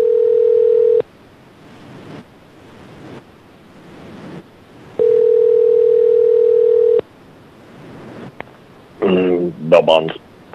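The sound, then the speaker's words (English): Telephone line tone from a pay phone while a call is placed: two steady, mid-pitched tone bursts, the first about one second and the second about two seconds, separated by a faint hiss, with a brief voice at the end. “let's give him a call.”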